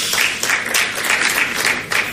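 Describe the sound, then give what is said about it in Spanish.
Audience applause at a corporate event, a steady, fairly loud wash of many hands clapping with no talk over it. “hay que llevar aplaudidores. Hay que llamar aplaudidores.”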